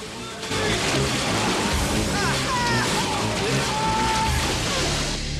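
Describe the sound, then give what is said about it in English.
Water sloshing and splashing as a person is dragged back and forth through it while flapping wildly, a loud, continuous churning wash that runs almost unbroken for several seconds. “He's dragged back and forth through the water, flapping his hands wildly.”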